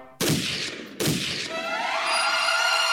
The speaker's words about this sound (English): That sounded like a gun.